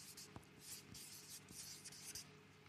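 Faint scratching of a pen on paper as a single word is written by hand, a few short rough strokes with brief pauses between them.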